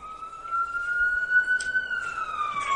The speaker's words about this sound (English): wait for this ambulance to pass.